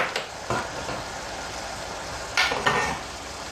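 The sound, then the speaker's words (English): Curry powder and paprika being stirred in a pan: quiet scraping and clinking of a utensil against the pan in a few short bursts over a soft sizzle. “Stir it well together”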